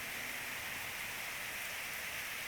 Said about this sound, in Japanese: 優しい雨、君を癒す催眠の雨、私だけが君を癒してあげられる。